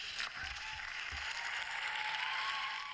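Faint studio audience applause, a soft, continuous patter of clapping that holds at an even, low level throughout, without voices.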